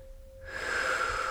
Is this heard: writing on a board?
no